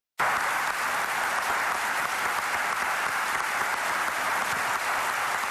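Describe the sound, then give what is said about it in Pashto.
Arab League foreign ministers applaud in Cairo after the UAE foreign minister criticizes Iran. Dense, steady clapping starts abruptly and keeps an even level throughout, with no talk over it. “د عربو د ټولنې د باندنیو چارو وزیرانو هغه وخت په چکچکو لاس پورې کړ”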